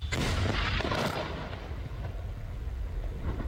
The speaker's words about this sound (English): that was the sound of an Israeli strike on a building in one of the largest cities in the country, Tyre in the south